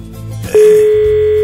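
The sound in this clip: A telephone rings during an outgoing call as a single steady, mid-pitched tone. It cuts in sharply about a third of the way through and holds loudly to the end, over a faint low background.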